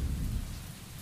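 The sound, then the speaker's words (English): Thunderstorm with steady heavy rain and a deep low rumble of thunder, loudest in the first half and then easing slightly, with no voices. “Do you hear that? Yes. Yes, that storm is quite dramatic.”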